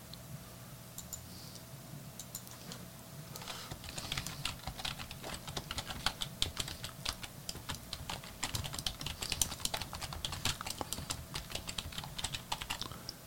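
Rapid typing on a computer keyboard: many crisp keystrokes in an uneven flurry, lighter at first and then denser and steadier, with no talk.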